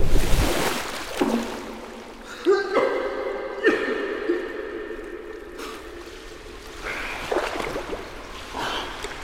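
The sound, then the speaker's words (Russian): Water splashes in a swimming pool as someone swims and clumsily attempts a somersault: a loud splash at the start, a few sharper splashes in the middle and continuous sloshing throughout. “Лука плывет в бассейне. Неуклюже пытается сделать сальто.”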